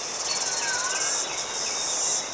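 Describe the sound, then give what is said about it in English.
Cicadas chirping in a loud, continuous high-pitched buzz with a fast pulsing texture, steady and alone for the whole stretch. “There's also the insects, the cicadas”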